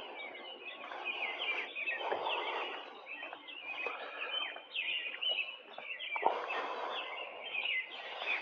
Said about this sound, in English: turned his microphone on in his garden and recorded the city sounds. But we listened to these birds